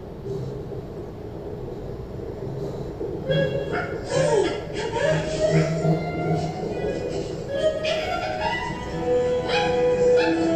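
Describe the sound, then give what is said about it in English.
Puppies yipping, whimpering and barking at a reunion: high, excited yips and whines come thick and fast after the first few seconds, layered over a steady background with people talking. “Yes, they have to have a puppy reunion.”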